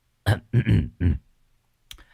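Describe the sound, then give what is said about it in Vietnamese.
A man clears his throat awkwardly before introducing himself to a silent class: three short, rough voiced bursts in quick succession, followed after a pause by a brief faint click. “hơi lúng túng hắng giọng”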